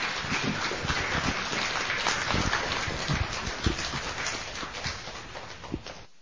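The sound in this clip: An audience at a conference gives a speaker sustained applause, a dense, steady clatter of many hands clapping that continues throughout and then stops abruptly.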